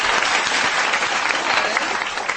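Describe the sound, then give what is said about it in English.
Audience applause at a live stage show as a performer is introduced: dense, steady clapping from a large crowd, loud and continuous throughout with no pauses. “Big applause for Sasha Starr.”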